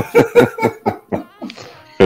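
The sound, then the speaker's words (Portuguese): Someone clears their throat in a series of short, rough, voiced bursts, loud and rhythmic, ending with a sharper final burst. “Higienizou a garganta.”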